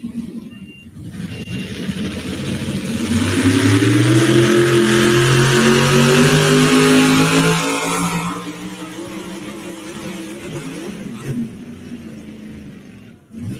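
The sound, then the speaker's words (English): A Ford pulling tractor roars as it drags an orange sled in a tractor-pull competition. The engine swells into a loud, harmonic drone for several seconds, then drops away to a quieter rumble. “Going to go after the Ford of Terry Bay. Dusty Berry and Nicole Roller coming up next on the orange sled.”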